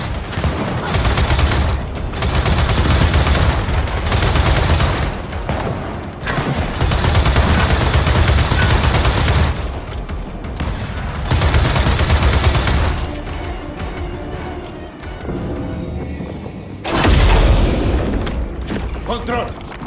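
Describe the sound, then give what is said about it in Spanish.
Heavy gunfire and booming blasts of a mortar attack in the Gears of War 4 video game come in several long, dense waves of loud fire separated by brief lulls. “¡Morteros! ¡Morteros! ¡Atacan con morteros!”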